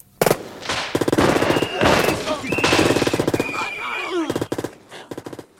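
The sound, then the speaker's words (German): Gunfire from a shootout between gangsters and FBI agents: loud, rapid bursts of automatic fire separated by short gaps, ending in a few sharp single shots. “Dillinger und seine Leute hatten das Feuer eröffnet.”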